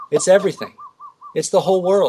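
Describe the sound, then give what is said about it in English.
A Hawaiian bird outside a window gives a few short, soft, even-pitched whistled notes in quick succession. The notes fall in a pause between stretches of people talking. “That's a bird outside my window.”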